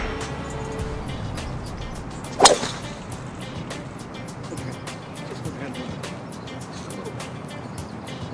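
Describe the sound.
A golf ball struck by a club gives a single sharp, whip-like crack that stands out briefly over steady background noise.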